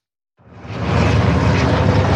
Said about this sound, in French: Alors que des hélicoptères bombardiers d'eau traversent toujours le ciel